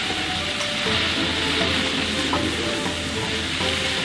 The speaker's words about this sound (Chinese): 热锅冷油，下蒜泥姜末放油爆香，下鳝丝煸炒